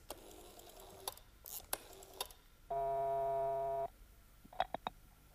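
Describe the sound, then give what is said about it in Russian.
Ringback tone of an outgoing telephone call to the White House: one long, steady buzzing tone lasting about a second, with sharp clicks before and after it. “Я позвонил вовсе не домой. Я позвонил в Белый дом, Эстер Таунсен, секретарю президента.”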